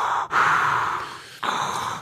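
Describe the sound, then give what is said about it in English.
A voice imitates someone breathing loudly into a microphone: two heavy, hissing breaths, the first long and strong and the second shorter, with no words. “ever since he came back in 2016, he breathes into the mic so loud.”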